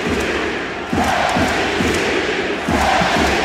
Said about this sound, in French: Alors ce genre de chant est habituel pour Wemby, mais celui-là, il a particulièrement fait trembler les murs de la salle.